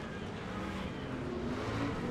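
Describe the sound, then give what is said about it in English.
Racing truck engines roar as trucks battle side by side on a race track. The sound is a loud, continuous, steady drone with no clear breaks. “The other two trucks getting into each other, slowing each other down. Here comes Mittag on the inside of one. McCaffrey trying to out-drag race him, but Mittag has the inside.”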